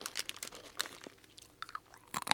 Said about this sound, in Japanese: これはちょっと辛いけど中に入ってるピーナッツと一緒に食べればマイルドになる感じだ